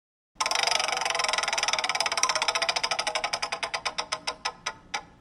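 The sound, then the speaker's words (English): A prize wheel spinning for a trivia category: a fast, loud ticking of its clicker gradually slows, the clicks spreading into distinct single taps before it stops. “So William, we're gonna spin the wheel.”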